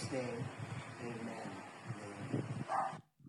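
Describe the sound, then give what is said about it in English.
Excited dog barks several times amid people talking, the yaps mixing with the voices before the sound cuts off. “The dog was really excited about that.”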